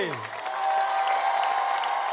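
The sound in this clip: Audience applause fills a festival evening at the fifth edition of Caravane Serail, a dense, sustained wash of clapping that swells slightly and holds steady, with crowd noise mixed in.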